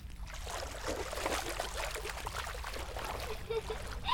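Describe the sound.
Water splashes as someone washes their face with hot bath water made from filtered rainwater, a continuous wash of sloshing and trickling with a few brighter splashes toward the end.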